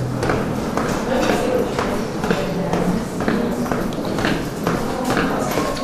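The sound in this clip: Footsteps go down the stairs of the Goulfard lighthouse, below a reception room with wood panelling and parquet, with thirty steps left: steady, repeated muffled steps under continuous talk.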